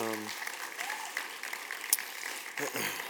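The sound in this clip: Church audience applauding the worship band: a steady wash of clapping from many hands, with a voice speaking briefly at the start and again near the end.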